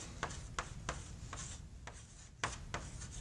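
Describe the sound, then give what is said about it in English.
Writing strokes of a theta dot symbol being written: several short, soft scratchy strokes spaced irregularly, faint and heard alone without speech. “I'm going to write this as a theta dot.”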